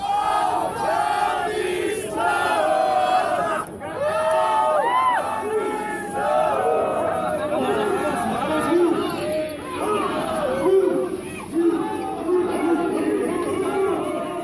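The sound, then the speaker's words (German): Icelandic football fans keep singing and celebrating outside the stadium at the European Championship in France, with loud group chanting and cheers from a large crowd that stays full and continuous throughout. “auch als die Mannschaft schon längst weg war, waren die isländischen Fans immer noch da, haben gesungen. Und ja, auch als dann alle aus dem Stadion raus musste, wurde noch weiter gefeiert und das klingt dann so.”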